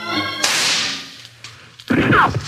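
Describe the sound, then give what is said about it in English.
Gunshots in a western gunfight among rocks: a sharp, loud crack with a long, fading, hissing tail, then a quieter gap and a second noisy burst near the end. “Yeah, I give them one shot and I get two back. They're in those rocks and just about out of range for a six gun.”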